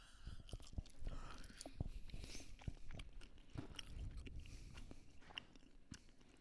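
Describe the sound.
Someone bites into and chews a piece of ham. Many small, quiet, moist clicks and smacks repeat in an irregular rhythm, with no talking over them.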